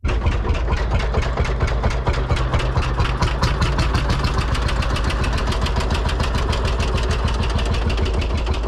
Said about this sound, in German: hier nochmal für die Freunde des Landsbulldogs die Geräusche unseres Lieblings aus dem Jahre 1938. 4,7 Liter Hubraum, 20 PS.